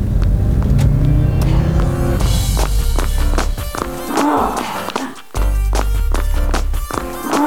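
A car's engine revs hard as it drives off at full throttle, a loud low rumble that stays strong throughout, with a short dip near the end before the roar returns.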